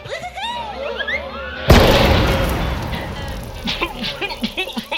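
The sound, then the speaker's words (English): A glitter bomb goes off in a pocket: high chirping tones, then one sudden loud burst that leaves a long rumbling, crackling decay scattered with short sounds. “Sorry about the bomb. Maybe I'll see you around sometime. Wait, where's the bomb? In your pocket,”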